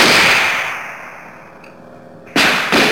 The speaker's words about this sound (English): Our M26 tank, mounting a 90mm rifle, has just opened fire upon the aggressive forces.